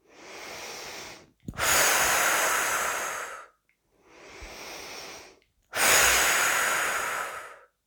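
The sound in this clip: Slow, deep breathing during a relaxation exercise runs through two full cycles. Each cycle is a softer, airy inhale followed by a longer, louder hissing exhale, with short silences between breaths.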